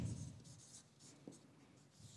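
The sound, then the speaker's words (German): Faint scratching of handwriting in continuous soft strokes, with one slightly sharper stroke partway through and no voices. “Und jetzt kann ich schon wieder nicht zusammen reden und schreiben. Deswegen schreibe ich jetzt einfach erst.”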